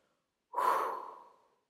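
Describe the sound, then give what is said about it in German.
Deep breath drawn in through the nose and let out through the mouth during a guided relaxation exercise: one soft rush of air about a second long, starting abruptly, then slowly fading, with no talking. “Nimm wieder einen tiefen Atemzug durch die Nase, füll den Bauch, füll die Brust, atme durch den Mund aus.”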